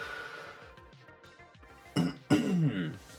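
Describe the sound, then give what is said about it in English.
Throat clearing: two short, rough, loud bursts in quick succession, rising abruptly out of a quiet stretch of murmur. “hopefully that's the last fucking ever throat clear.”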